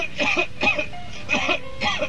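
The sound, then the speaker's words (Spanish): Coughing in a Spanish-language advertisement for a cough remedy: four short, rasping coughs in an uneven rhythm over a faint, steady tone. “Toma Seneguina y déjate de toser.”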